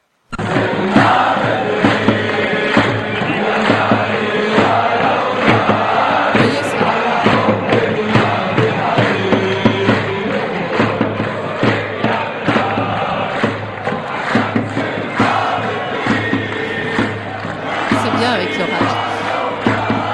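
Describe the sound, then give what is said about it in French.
A crowd chanting at a Syrian protest demonstration: loud massed voices with rhythmic shouted pulses and occasional whoops, sustained without a break. “C'est un son de manifestation tout à fait classique de la première année des mobilisations en Syrie.”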